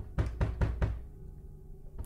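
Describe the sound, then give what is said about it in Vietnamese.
Someone bangs on a bedroom door: four heavy, hollow knocks in a quick even rhythm, a pause, then one more knock at the end. “nghe tiếng đập cửa rầm rầm bèn bật dậy”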